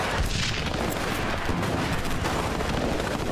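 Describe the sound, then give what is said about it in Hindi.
Battle gunfire from rifles and a light machine gun roars as a dense, unbroken wall of crackling shots at steady loudness throughout, with no single report standing out. “जितना असला है पूरा इस्तेमाल करो, मैं तुम्हें और बक्सा ला के देता हूं असला। फायर!”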